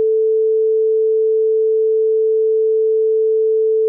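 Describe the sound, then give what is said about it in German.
A computer-generated sine tone of a single frequency sounds as one pure, steady mid-pitched hum. It holds at a constant loudness for about four seconds, with no overtones or other sounds. “Wenn man das Ganze jetzt am Computer erzeugt, dann ist es schon möglich, einen Ton zu erzeugen, der aus einer einzigen Frequenz besteht. Und das sind dann Sinustöne.”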